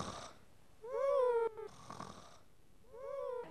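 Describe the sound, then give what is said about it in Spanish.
Snoring of a king asleep on his throne: a few faint, drawn-out, wheezy snores with a throaty, tonal rasp, separated by quiet pauses. “el rey en su trono totalmente dormido y soltando fuertes ronquidos.”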